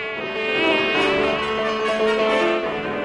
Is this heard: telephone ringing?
no